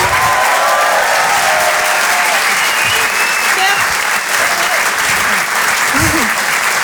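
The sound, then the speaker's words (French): A comedy club audience applauds and cheers for a comedian, with dense, loud clapping that holds steady throughout and shouts mixed in. “Faites du bruit s'il vous plaît pour Nash.”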